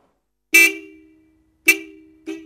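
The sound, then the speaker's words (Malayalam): Three blares from the horn of an arriving car: two strong honks, each tailing off slowly, then a shorter, softer third toot at the end, with silence between. “ഒരു കാറിന്റെ സൗണ്ടല്ലേ ആ കേട്ടത്?”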